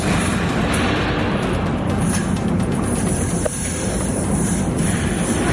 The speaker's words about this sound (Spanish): Así sonaba la enorme columna de fuego.